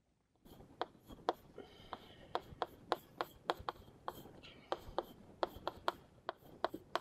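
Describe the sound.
Handwriting of a formula, rendered as a long run of many short, crisp scratches and taps from quick pen strokes, fairly faint and steady, with no talking.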